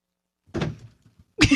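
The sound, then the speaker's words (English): Someone falls out of a chair with a dull, muffled thunk. A second, louder burst follows a moment later. “Someone just fell out of the chair. Sorry if you're collapsing back there.”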